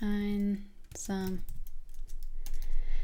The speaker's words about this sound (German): Ah, das schreibe ich mir gerade mal auf für die Folge, wo ich dann darüber spreche. Ich schreibe mir da nämlich jetzt Stichpunkte auf.